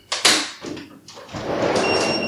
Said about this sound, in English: thankfully we have a patio door right here